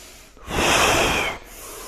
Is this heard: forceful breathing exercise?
yes

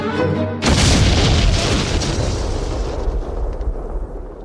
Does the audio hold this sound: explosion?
yes

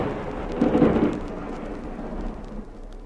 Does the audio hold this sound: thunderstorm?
yes

